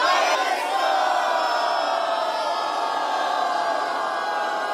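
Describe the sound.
A crowd cheering: a loud, unbroken roar of many voices that stays at an even level from start to finish, with no individual words standing out.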